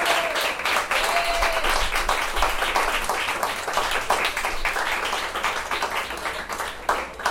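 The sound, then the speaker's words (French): Audience applause at a science café event on bioclimatic architecture: dense, steady clapping from many hands that stays loud and even for the whole stretch, with no talk over it. “Donc, les applaudissements pour Florence et Thibault de l'association Aqua.”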